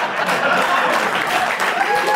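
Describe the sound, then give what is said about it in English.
Audience applause at a family show, a dense, steady burst of clapping that stays loud and even from start to finish with no pause. “Don't clap! Ah, clap, what do I care?”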